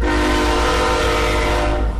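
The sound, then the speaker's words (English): A sustained train horn blast from a train passing through the town of Fort Collins, near an office by the tracks. It is loud and steady for the whole clip, with layered held tones over a low rumble. “He's had to stop several conference calls because of train horn noise.”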